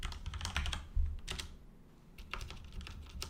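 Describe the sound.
Typing code on a computer keyboard: faint clusters of quick clicking keystrokes with a brief lull in the middle before the tapping resumes, with no voices.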